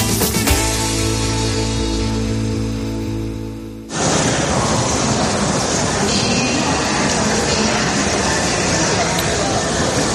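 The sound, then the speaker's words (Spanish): Terminal ambience at El Prat airport in Barcelona: a loud, continuous wash of noise, a humming tonal drone through the first few seconds, then broad bustle with indistinct voices. “Así suena un aeropuerto como el aeropuerto del Prat en Barcelona.”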